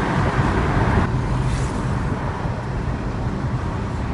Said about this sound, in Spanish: Siente la potencia de este automóvil.